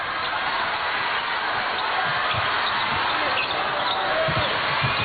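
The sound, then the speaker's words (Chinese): A basketball is dribbled across half court during a China versus Czech Republic game, with dull bouncing thumps under steady crowd noise and people talking. “捷克队还是全场扩大盯人，中国队运球过半场”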